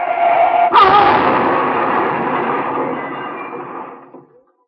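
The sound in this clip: A car skids and crashes in an old radio drama: a steady tonal tyre screech over noise, then one sharp, heavy impact and a long, loud rumbling roar that slowly fades out over about three seconds into silence.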